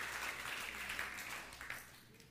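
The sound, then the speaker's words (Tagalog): A church audience applauds the Lord during a sermon, a steady wash of clapping that runs through the whole stretch at a fairly low level. “Once again, palakpakan natin yung Panginoon.”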